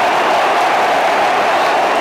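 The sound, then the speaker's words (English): Dense, steady crowd applause and noise from travelling Millwall football fans at full time after the final whistle, holding at a fairly loud, even level for the whole stretch with no distinct individual claps standing out. “Applause from the Lions fans for the travelling.”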